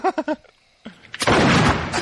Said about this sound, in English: Oh, my God. He shot the giggler. Should not have killed the giggler.